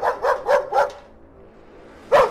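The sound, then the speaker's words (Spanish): A dog barks behind a fence at the backyard of a house: several sharp, loud barks in quick succession, a short pause, then one more bark. “Ya el perro al menos se queda al otro lado de la reja ladrando.”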